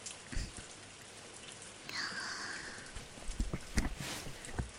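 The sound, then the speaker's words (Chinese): Heavy rain falling as a steady hiss with scattered louder drops and thumps, fairly faint and without talk. “这雨真的是太大了”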